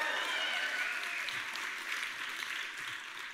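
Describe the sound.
A church audience applauds during a service. Soft, steady clapping continues evenly for a few seconds with no break.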